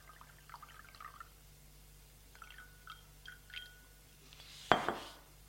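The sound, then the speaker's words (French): Drink poured into two glasses: soft drips and faint glassy trickles come in small bursts, then one sharper, louder splash of liquid near the end before it fades. “Il retourne vers elle et remplit les deux verres.”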